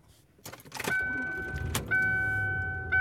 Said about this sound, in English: And I am driving home.